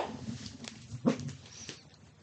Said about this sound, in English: Apologies for the dogs barking, by the way.